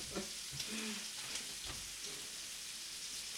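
Bacon sizzles on a griddle at a Super Bowl party, a steady, even crackle of frying fat with scattered small pops throughout.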